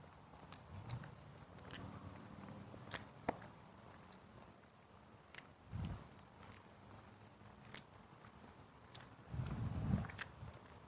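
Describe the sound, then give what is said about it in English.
Footsteps of a person walking overhead, faint scattered thuds with a few heavier, louder steps toward the end. “A guy overhead here walking.”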